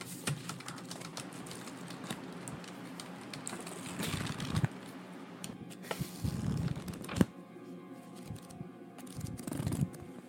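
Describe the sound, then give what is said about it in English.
Pages of a manual flipped through at a work table: an irregular run of faint papery rustles and light ticks, with a few louder sweeps as pages turn. “Just looking through our manual to make sure that all of the things we're doing is legal.”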